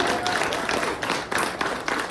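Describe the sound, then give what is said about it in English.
A group audience applauds a cohort of songwriters in a music program, a rough, uneven patter of clapping that swells and dips in several bursts, moderately loud. “So we've got a lot of natural songwriters in this group. Well, so give them a round of applause for that.”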